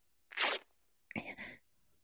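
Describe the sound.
Silk stockings being torn open give a sharp, hissing rip, then a second, shorter rasping tear after a brief pause. Both sounds stand alone against near silence.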